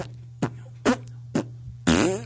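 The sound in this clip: Farts recorded on tape and played back: four brief flatulent blasts spaced apart, the last longer and raspier, over a steady low hum.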